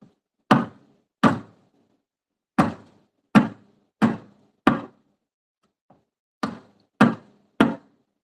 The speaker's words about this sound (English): Then just slam it against the tape, the cutting board.